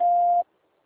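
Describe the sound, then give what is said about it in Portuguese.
A voicemail tone: one steady, mid-pitched beep lasting under half a second, sounding alone and then cutting off into silence. “Please leave your message after the tone.”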